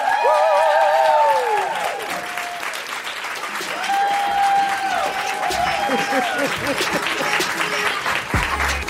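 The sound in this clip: Audience applause welcoming a guest on stage, steady loud clapping throughout with music playing along.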